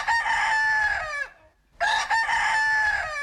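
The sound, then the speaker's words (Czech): A rooster crows twice, each call a long, loud, rasping cock-a-doodle-doo that ends in a downward slur. A brief silent pause separates the two crows. “3, 2, 1. Kohout”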